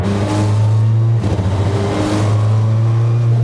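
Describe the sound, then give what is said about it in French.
A Citroën Xsara WRC rally car with a big turbo revs hard on throttle. Its engine makes a loud, steady, deep drone with strong harmonics, which briefly wavers twice during the burst. “Et c'est très spécial la remise des gaz.”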